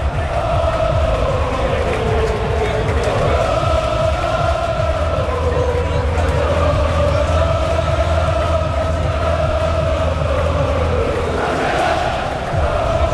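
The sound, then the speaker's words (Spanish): A stadium crowd of 15,000 fans fills Castellón's sold-out Castalia minutes before kickoff, a steady loud roar with sustained, tuneful chanting rising and falling across the whole stretch. “15.000 espectadores en el Skyfy Castalia, que vamos a escucharlo porque suena así a pocos minutos de que empiece el partido.”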